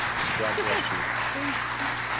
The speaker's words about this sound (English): So today, would you put your hands together and welcome my friend, Angela Hogan.